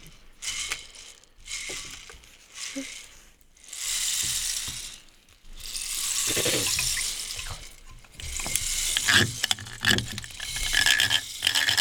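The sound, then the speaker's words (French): Flowing water like a running tap, heard as swelling and ebbing washes of hissing noise with clicking, ratchet-like sounds mixed in. “On va commencer par l'eau, et on la laisse jouer un tout petit peu”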